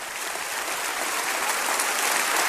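Applause fills the room from an audience at Lakewood, a dense, unbroken hiss of many hands clapping at a steady, fairly loud level with no pause.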